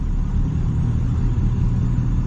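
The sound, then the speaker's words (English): A car engine fitted with 205cc injectors runs in a quiet idle mode, giving a steady, even low rumble with no voices. “So then I have number two, yes, which is the high idle. So you can see my RPMs jumped up to 1100. Number three is quiet idle.”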